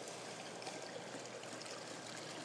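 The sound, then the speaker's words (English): Water from a fountain at a Christmas display splashes in a steady, unbroken rush, faint and even throughout, with no distinct individual drops standing out. “But there is a kind of a fountain here with a huge snowman.”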